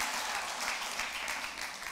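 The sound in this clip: A church audience applauds during a sermon on the joy of salvation, a brief, even wash of many hands clapping.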